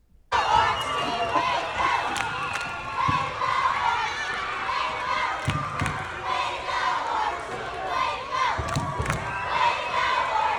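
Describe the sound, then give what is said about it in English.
About fifty young boys, second through fifth graders, cheer and shout as they rush out of the bleachers to congratulate a winner. Loud, continuous crowd yelling is mixed with scattered thuds of running feet. “And after he won, 50 orange team boys, second through fifth graders, rushed out of the bleachers to congratulate him and to lift him up. And this is a video that shows.”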